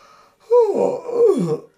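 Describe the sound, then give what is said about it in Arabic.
A narrator's voice imitates a jackal yawning in a children's story: a drawn-out, breathy voiced yawn with a groaning tone. It rises out of near silence and lasts about a second. “وكان ابن آوى قد أفاق من نومه الثقيل، تثاءب قليلا ثم غمغم قائلا”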